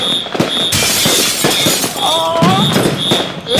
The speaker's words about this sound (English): It's Chinese fireworks.